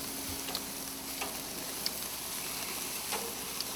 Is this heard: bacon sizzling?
yes